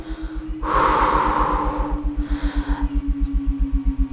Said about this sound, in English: And hold. Hold. 3, 2, 1. And exhale.